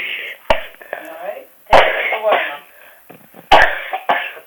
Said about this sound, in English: This cough has come back.